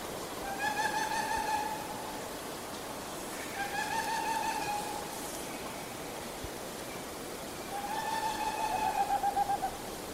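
Owl hooting from a strong territorial male, in three separate bursts of rapid, high-pitched repeated notes. Each burst lasts about a second, and quiet stretches of steady background hiss fall between them.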